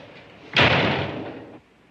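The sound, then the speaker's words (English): A door is slammed shut with a single loud, sharp bang, followed by about a second of rumbling decay before it cuts off. “She walks out and slams the door.”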